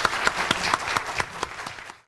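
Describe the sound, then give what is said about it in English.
Audience applause for the speakers at the end of an evening event: a dense, steady patter of many clapping hands that fades out at the close. “end with another applause for our speakers”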